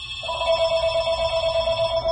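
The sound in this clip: A telephone rings at a closing shoe repair shop in Kensington with a steady electronic trill that starts almost at once and runs unbroken to the end, clear and fairly loud, with no talking.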